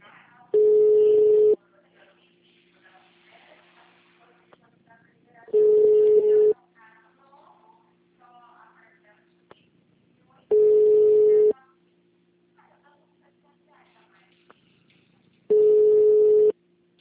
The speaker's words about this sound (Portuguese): Tô ligando, ninguém atende, povo estranho.